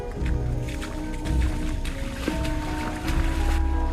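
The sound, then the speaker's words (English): Several people wade and slosh through shallow water beside a small boat moored on a sandbank where a stream widens into a river. The splashing is steady and irregular, without distinct separate steps. “They slosh through shallow water”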